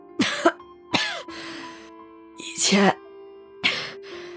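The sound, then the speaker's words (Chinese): Coughing from a weak, drowsy woman lying ill in bed, a few rough bursts mixed in with her feeble, breathy speech. “又咳了一声，说话的声音有气无力的”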